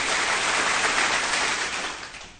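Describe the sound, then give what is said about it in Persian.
Audience applause at a comedy show: a dense, steady patter of clapping that holds even for a couple of seconds, then thins and fades out. “بزن دست قشنگه رو”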